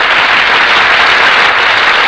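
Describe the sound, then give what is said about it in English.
Steady applause from a studio audience as the stars of a radio drama enter, a dense, loud wash of clapping that continues alone and unbroken throughout. “That applause, ladies and gentlemen, is for our stars who have just entered from the wings.”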